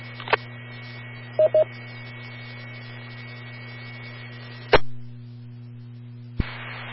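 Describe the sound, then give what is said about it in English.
DTMF touch-tone beeps from pressing the pound key to disconnect a ham radio repeater autopatch: two short, steady tones close together over a constant low hum, with a few sharp clicks. “you hit the pound key, and that will disconnect the call”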